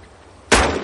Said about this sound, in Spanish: Dame el arma, boludo, dale, dale. Le pasa la pistola.